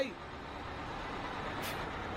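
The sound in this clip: A bus rumbles with a broad, steady roar while braking to a stop, and a short, bright hiss of air bursts out about two-thirds of the way through before the even engine noise carries on.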